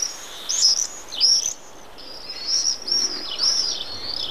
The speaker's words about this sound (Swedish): Här på slutet hörde vi hur tornseglaren låter.